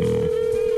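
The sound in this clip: A telephone tone sounds as a call is placed and rings unanswered: one steady, single-pitched electronic tone holds loud and unbroken throughout, with faint noise beneath.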